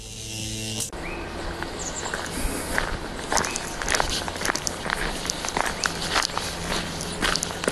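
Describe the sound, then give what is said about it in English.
Footsteps walk down a path, with many steady steps crunching over a constant rough background hiss. The footfalls go on throughout with no clear pauses. “Hey, while we're walking down this path here, we got a few minutes.”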